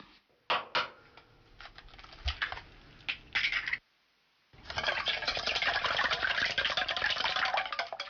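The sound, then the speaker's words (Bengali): Two eggs being beaten in a bowl for a chicken coating: a few scattered sharp taps and clicks, a short silence, then several seconds of rapid, steady clattering whisking. “একটি পাত্রে 2টি ডিম ভেঙে ফেটে নিন।”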